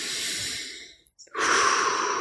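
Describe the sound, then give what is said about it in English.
Deep breathing from a person, with two long, airy breaths separated by a short silent pause, the second one loud and steady. “I invite you to just breathe right now. Just breathe.”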